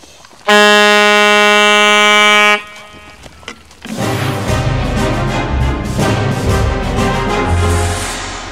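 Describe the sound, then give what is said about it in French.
A horn sounded in one loud, sustained blast of about two seconds with a steady, rich buzzing tone, followed by a short lull and then a dense, noisy stretch of sound. “On peut sonner la corne pour lui demander s'il a apporté un peu de jaja”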